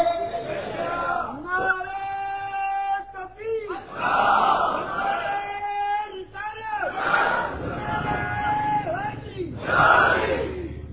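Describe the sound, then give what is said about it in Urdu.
A crowd chants the Nara-e-Haidari slogan at a religious sermon about Imam Ali, with several loud, drawn-out shouted phrases from many voices rising and falling in waves with short gaps between them. “دیو نعرہ حیدری”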